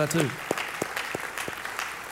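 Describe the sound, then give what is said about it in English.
Applause from a Methodist church audience celebrating the planting of 40 churches, with scattered clapping and a few sharper, louder hits. A brief voice is heard at the very start. “And we've planted 40 of them, 40 churches. No other church in Methodism has planted 40 churches. You can clap for that too.”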